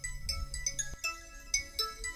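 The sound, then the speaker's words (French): A mobile phone rings with a melodic electronic ringtone: a quick series of bright, repeating notes, soft in level, with no voices over it. “Ah, excusez-moi, il y a mon téléphone qui sonne.”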